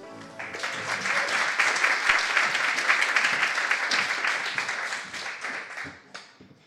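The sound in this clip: An audience applauds to welcome a speaker: dense, steady clapping that swells, holds for several seconds, then thins out and fades.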